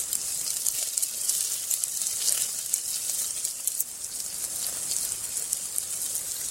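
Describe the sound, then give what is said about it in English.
Something fries in oil until soft, giving a steady, faint sizzle with crackling pops and no talk throughout. “Fry them in oil until soft. Don't let them burn though, that's just for witches.”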